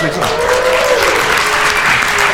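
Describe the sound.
Live audience applause fills a Beijing venue, a dense, steady wash of clapping from many people that stays loud and even from start to finish.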